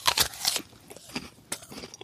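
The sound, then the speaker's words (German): Crisp bites into a crunchy Ingrid Marie apple, a few sharp, juicy crunches at the start followed by quieter crunching and chewing, fairly faint with no voices. “Die Äpfel selber wanderten dann von dem Christbaum auf den bunten Gabenteller zu all den Süßigkeiten und wollen natürlich nur noch eins, verspeist werden, wie die leckere Ingrid Marie.”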